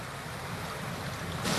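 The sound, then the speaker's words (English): The tide surges into coastal inlets in the Kimberley region of northwest Australia, a low, steady roar of rushing water mixed with wind that grows louder in the last moments. “The tide sweeps into them with amazing speed and ferocity.”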